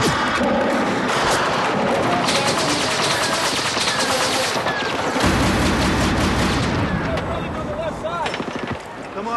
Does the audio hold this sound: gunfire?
yes